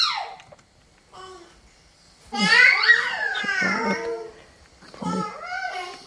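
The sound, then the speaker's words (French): A five-month-old baby, alone, exploring its voice with squeals and coos but no babbling yet, in three separate bursts. The later two are longer and pitch-varying, with the voice sliding up and down. “Ça, c'est un bébé de 5 mois qui fait un peu tous ces trucs d'exploration. Il est tout seul. Donc ça, c'est vraiment typique de cet âge-là. Pas de babillage encore.”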